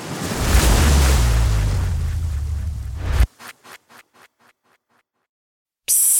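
A loud, steady roar of ocean surf mixed with wind noise at a surf break, cut off abruptly and followed by a few rhythmic pulses that fade into silence before the rush of water returns.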